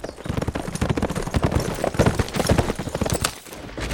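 Horses trotting, their hooves clip-clopping in a steady, dense run of many sharp beats that continues throughout with no voices.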